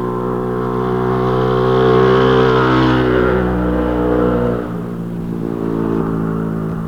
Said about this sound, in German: Als einer der Ersten verließ Hans Höller das Haus, hatte sich auf seine Maschine geschwungen, gab Gas und sauste los.